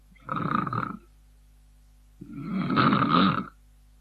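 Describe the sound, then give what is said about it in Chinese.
A sleeping man's heavy snoring, voiced by a storyteller: two loud, rasping, drawn-out snores, the second longer and stronger, separated by a stretch of near silence. “徐良那呼噜声离多远都能听见”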